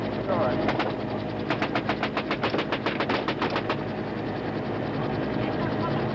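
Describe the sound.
Machine-gun fire from a helicopter crew returning fire at North Vietnamese troops during a wounded-soldier pickup: a short burst, then a longer, rapid, loud volley, over a constant rotor drone.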